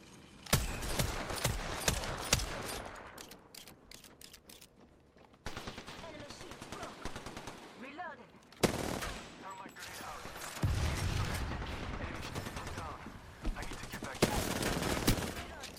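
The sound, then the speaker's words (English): Rapid bursts of automatic gunfire from a gun in a video game: many loud, crackling volleys separated by short gaps, with dense rattling shots and occasional heavier booms throughout. “I love this gun. Whoa! That gun is so hard to control,”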